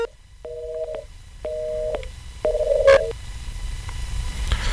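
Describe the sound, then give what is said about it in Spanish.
Telephone tones from a failed phone call: three evenly spaced, steady two-pitch beeps of about half a second each over a hissy line. A sharp click follows, then continuing line noise. “parece ser que la tecnología nos falló ahí con la llamada del profesor Erubiel Tirado”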